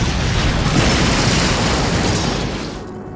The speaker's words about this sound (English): The two transmutation engines made a fine display as the fleet blasted them apart